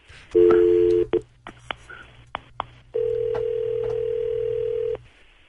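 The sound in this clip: Telephone tones as a call is dialed: a long dual-tone beep, a quick run of short clicks and blips, then a steady held tone lasting a couple of seconds, all over a constant low hum.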